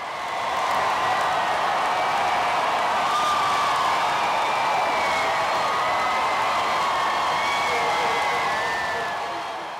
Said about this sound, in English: this was the sound of some 10,000 people outside of the statehouse as the Confederate battle flag was taken down days after the horrific shooting.